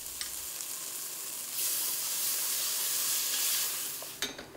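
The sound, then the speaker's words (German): Coarsely diced onions, carrots and leek fry in a pan with tomato paste as the base for a sauce, giving a steady sizzle that swells louder midway. A short clatter of stirring follows near the end. “brät für den Soßenansatz grob gewürfelte Zwiebeln, Karotten und Lauch an. Tomatenmark darf mitrösten.”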